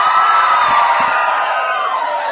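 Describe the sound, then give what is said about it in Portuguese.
Booing from a crowd in a council chamber plenary session, a dense, sustained wall of jeering voices that stays loud and steady throughout. “Eu não me importo com vaias, não, senhor presidente.”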